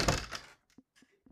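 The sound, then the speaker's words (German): A window being shut gives one dull, loud thunk with a brief rattle, followed by a few faint, short knocks. “Ich muss mal Fenster zumachen, ich halte das nicht aus.”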